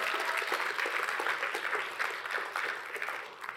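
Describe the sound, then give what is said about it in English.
An audience applauds for the performer's mother: dense, steady clapping throughout, fairly faint, with no clear voices. “I'd love for you guys to make some noise. My mom is here tonight. You make some noise for my mom.”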